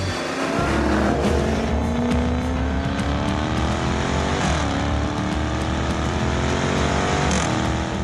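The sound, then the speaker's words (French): V8 engine of an XE saloon car driven hard on the La Ferté-Gaucher race circuit, a loud continuous roar climbing in pitch through the gears and dropping briefly at a couple of shifts. “Bon allez, c'est parti pour l'essai de cette XE sur le circuit de la Ferté-Gaucher.”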